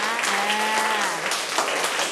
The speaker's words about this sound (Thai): นักเรียนปรบมือตัวแทนค่ะ